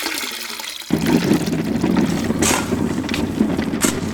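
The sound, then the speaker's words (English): Water pouring into a trough to mix plaster for bricklaying on a mosque building site. After a brief quieter moment, a loud, steady rushing gush runs on continuously. “That's water being poured into a trough to mix the plaster that will hold the bricks together.”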